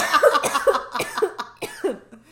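A person choking and coughing: a run of harsh, rhythmic coughs with voiced, strained tones between them, tapering off at the end.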